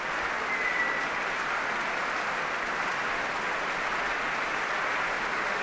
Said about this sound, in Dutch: Ja, een staande ovatie in het Concertgebouw. Voor Dima Slobodenjuk.